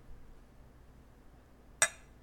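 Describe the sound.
Wine glasses touch once in a toast, giving a single bright, high glassy clink. The clink comes sharply after a quiet, low background hum and rings briefly before dying away.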